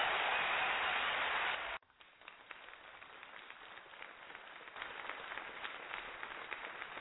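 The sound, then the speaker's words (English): Audience applause welcomes a speaker onstage at a talk on natural medicine and grief. A dense, steady burst of clapping lasts under two seconds and then cuts off abruptly, leaving only a faint murmur. “Please put your hands together as we welcome Dr. Charles Apple.”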